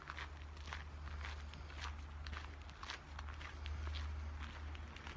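Steady footsteps walking through a forest, with many even, regular treads under a constant low hum and no talk.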